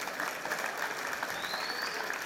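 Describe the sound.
Audience applause: a dense, even patter of many hands clapping that holds at a steady level from start to finish, with no clear voices on top.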